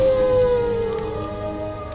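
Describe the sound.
A wolf howls on a winter night in the desert: one long, drawn-out wail that slides slowly lower in pitch and stops after about a second, over a low, droning background.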